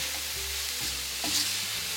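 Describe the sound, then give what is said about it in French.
Meat fries over high heat in a pan as it is stirred, giving a steady, loud sizzle with soft scraping and stirring movements throughout. “je mélange bien. Je remue, je remue. Je suis sur un feu fort.”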